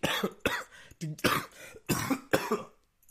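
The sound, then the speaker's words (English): A person gives a run of several harsh, hacking coughs in quick, uneven succession. The coughs are fairly faint, with no other sound alongside. “the cough is a lot worse. The cough sounds a lot worse than it actually is.”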